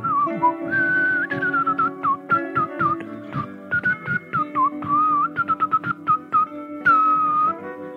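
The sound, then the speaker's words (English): Flute-like whistling made by blowing into an arm: a wavering, breathy melody of many short, clear notes with quick pitch bends, alone, without talk. “And you're blowing into your arm and playing it like a flute, like...”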